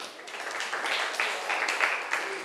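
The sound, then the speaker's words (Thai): Classroom applause for a student, a steady patter of many hands clapping at once, fairly faint and lasting a couple of seconds. “ขอบคุณมากเลยค่ะปรบมือให้เพื่อนหน่อย”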